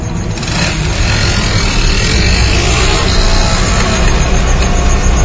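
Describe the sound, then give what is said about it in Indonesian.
A motorcycle engine that has just started again runs with a steady, loud, continuous drone. The low hum holds even throughout, with no voices over it. “motorku kembali menyala. Tanpa banyak lama, aku kembali melajukan motor.”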